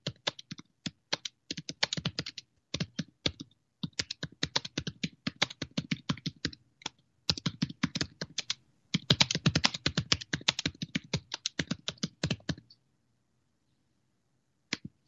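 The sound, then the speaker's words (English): Rapid typing on a computer keyboard: many sharp keystroke clicks in quick clusters, separated by short pauses, then silence for the last couple of seconds. “I'm gonna type her an update real quick.”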